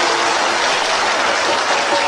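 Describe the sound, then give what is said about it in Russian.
People clap as someone dances, a thick, continuous wash of many hands clapping at a steady, loud level with no pauses. “Ну и они хлопают.”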